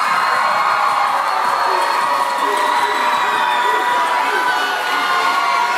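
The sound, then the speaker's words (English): Crowd cheering, screaming and whooping, added as a celebratory sound effect, forms a loud, dense and continuous roar that holds steady from start to finish. “I would love for you to insert a crowd screaming my name and clapping right now.”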